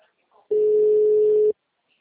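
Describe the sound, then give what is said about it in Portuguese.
Telephone ringback tone as a call connects: a single steady, mid-pitched beep lasting about a second, with near silence on either side. “Agora tá chamando.”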